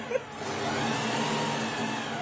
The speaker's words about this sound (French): j'adore le bruit de la 2 chevaux qui démarre.